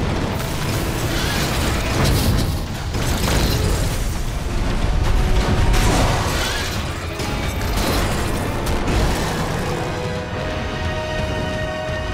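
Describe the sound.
Explosions and gunfire in a mecha battle, a loud, dense rumble of booms and bursts with mechanical clanking that runs continuously with only slight swells.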